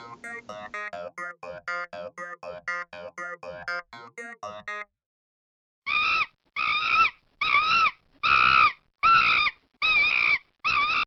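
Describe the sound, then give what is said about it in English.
Chimpanzees calling: a rapid run of short, pitched hoots gives way after a brief silence to seven louder, drawn-out shrieking cries in a steady rhythm. “That sound you just heard was of some of your closest relatives, the chimpanzees.”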